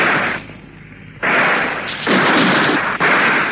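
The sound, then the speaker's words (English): Gunshot fired at a helmeted man coming down a set of steps: a loud, rough, noisy blast dips briefly, then returns and holds through the end with small breaks, with no talk. “He's got a helmet on. I'll have a shot at him.”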